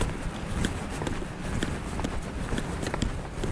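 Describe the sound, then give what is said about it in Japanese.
Footsteps of a person walking, many soft, evenly paced steps heard under a steady wash of background noise. “私今歩いておりますけども”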